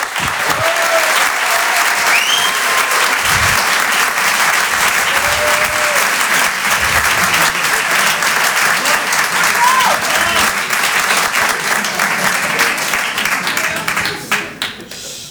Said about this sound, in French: Faites du bruit, s'il vous plaît, pour Julien Santini.